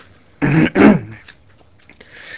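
Someone clears a hoarse throat on live radio, two loud, rough bursts in quick succession, then a few faint small sounds.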